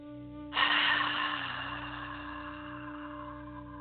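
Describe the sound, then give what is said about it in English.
One long, deep cleansing breath begins abruptly and slowly fades over about three seconds. It plays over soft, sustained background music during a guided relaxation exercise. “take a deep cleansing breath”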